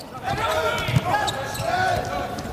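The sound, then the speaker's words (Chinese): A volleyball is served hard by the German team's number 66 outside hitter, a single dull ball impact heard amid constant arena crowd noise and a commentator talking over it. “66号德国队的主攻手勒尔斯率先来发球， 上来球发就很凶啊。”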